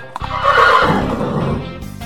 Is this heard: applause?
no